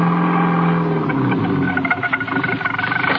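A car engine drones as the car crawls slowly through thick fog. A steady low hum and rumble roughens into uneven pulsing throbs toward the end, with no voices.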